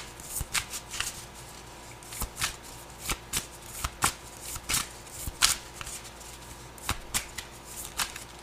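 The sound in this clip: Tarot cards being shuffled during a reading, a rapid series of many sharp, crisp riffling snaps and soft slides in an irregular rhythm, fairly loud and with no talk.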